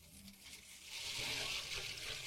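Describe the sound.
Water from a municipal tanker truck pours into containers during a shortage, a steady rushing flow that swells noticeably louder after about a second and continues strongly.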